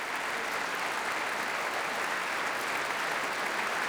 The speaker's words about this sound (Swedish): tar emot applåder och så gör också kvällens solister.